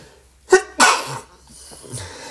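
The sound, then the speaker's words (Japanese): A sneeze from someone who had been talking and felt it coming: a short sharp intake, then one loud, noisy burst, followed by faint breathing and quiet. “ちょっと待ってください。くしゃみが出そうです。”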